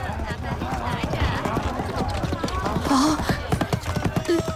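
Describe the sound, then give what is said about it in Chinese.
Rapid clip-clop of hooves from a galloping horse-drawn carriage racing along a street. It is a steady, dense run of hoofbeats at moderate loudness. “一骑马车飞奔而来，车上坐着全公子。”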